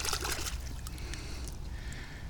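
Water sloshes and trickles as a Top-Flite golf ball is washed off, with quiet splashy bursts at the start easing into a soft, steady trickle.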